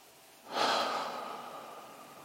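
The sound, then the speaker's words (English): A deep breath drawn in during a seated posture and relaxation exercise: a soft, airy rush that swells quickly after a moment of quiet, then slowly tapers while staying steady, heard alone. “And then we take a deep breath in and pump ourselves up a little bit and get the shoulders high.”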